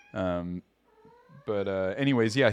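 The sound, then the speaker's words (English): A cat meows twice. The first call is drawn out and steady; after a short pause, a longer second meow wavers in pitch. “I have a cat right here. If you hear a cat meowing”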